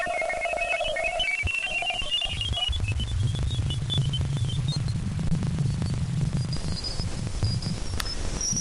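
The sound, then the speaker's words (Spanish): A NASA space mission recording of Jupiter's moon Ganymede: eerie whistling chirps and warbling tones over a steady hiss, with a low rumbling band entering in the second half. “También podemos escuchar cómo suena una de las lunas de Júpiter. Mira, es la luna de Ganímedes.”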